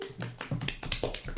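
Hand claps from a small group of people, several sharp bursts in an uneven rhythm over about a second and a half, fairly loud with no talk over them.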